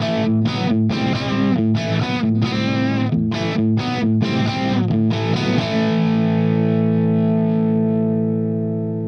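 Electric guitar riff played with a crunchy, mildly overdriven amp tone: rhythmic chord hits with brief silences between them, then a final chord that rings steadily and slowly fades over the second half.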